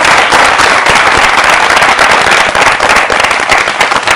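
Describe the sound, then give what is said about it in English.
Audience applause at a question-and-answer session: dense, continuous clapping that stays loud and even throughout, with no pauses. “How about a round of applause for him as well?”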